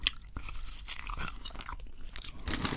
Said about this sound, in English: Where's the salt? Why are they thicker? I swear they used to be thinner like this. These taste like KFC chips.